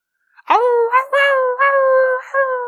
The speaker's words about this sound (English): you don't have to be a philosopher to know that those wolves sound very close. Sounds like a lot of them. They sound hungry.